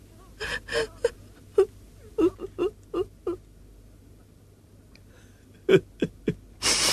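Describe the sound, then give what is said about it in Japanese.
A grieving mother sobbing and wailing over her dead son, a series of short broken gasping sobs, a quiet pause, then another cluster of sobs. “なあ母ちゃんや泣くのはおよし”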